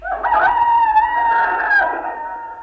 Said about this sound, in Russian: Второй петух, прощайтесь.